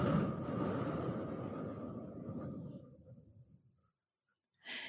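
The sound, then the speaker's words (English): A slow exhale through the mouth after a held breath in a guided breathing exercise, a soft, steady breathy rush that thins and fades out over about four seconds, faint and alone. “Let's inhale one more time through the nose. Hold it, and then breathe out through the mouth.”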